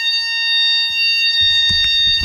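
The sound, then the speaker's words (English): A fire alarm sounds during a test: a shrill, steady, continuous high tone runs throughout, loud and unbroken, with a few low knocks beneath it toward the end. “Hang on. Fire alarm!”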